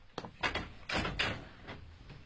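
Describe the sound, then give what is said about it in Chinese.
A corridor window is opened a little, giving a few short scraping and clunking bursts of varying loudness, fairly faint overall. “我把走廊的窗子打开一点”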